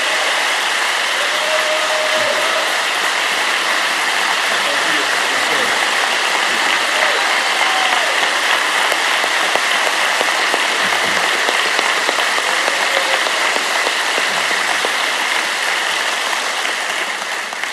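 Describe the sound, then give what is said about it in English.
Dense, steady audience applause welcoming a senator and congressman, an unbroken rain-like roar of many hands that holds level for about eighteen seconds, with faint voices beneath. “Let's give a warm Harvest welcome to the Senator and Congressman.”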